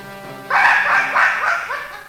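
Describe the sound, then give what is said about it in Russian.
A big dog barks on a hunt: a few loud, harsh barks in quick succession with no pause between them, over a low steady background hum. “Этот пес мешает мне охотиться! Замолчи!”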